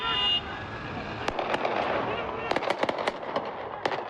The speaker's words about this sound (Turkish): pompalı tüfekle polislere ateş açtı.